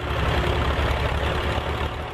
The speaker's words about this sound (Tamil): கதமுத, உன் எதற்கு டிராக்டர் நிக்குது பாருவா. ஆமா, ஒரு டிராக்டர் நிக்குது.